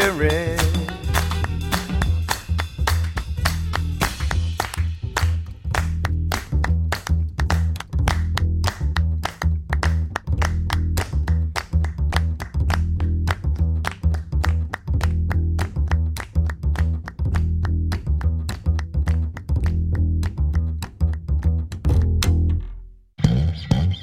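Many hands clap along in steady rhythm to a song: sharp, evenly spaced claps over a loud musical backing that runs nearly the whole time, then drops away near the end.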